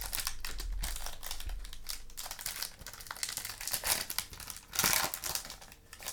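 Foil trading card packs crinkle and tear as they are pulled open, making a steady, dense crackle throughout with a louder ripping burst near the end.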